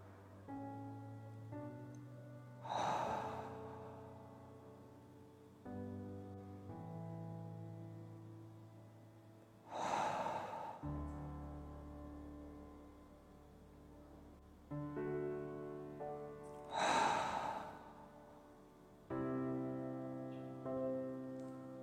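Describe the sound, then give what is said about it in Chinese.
Three slow deep breaths are drawn in through the nose and let out through the mouth during a guided meditation. Each soft, airy exhale swells and fades over calm, sustained background music. “先做三个深呼吸，鼻子吸气，嘴呼出去。”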